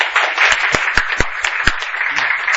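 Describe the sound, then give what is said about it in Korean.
Audience applause at a humanities lecture in a library: steady, dense clapping that fills the whole clip, with a few sharper single claps standing out from the wash and no voices. “자, 박수 한번 쳐줍시다.”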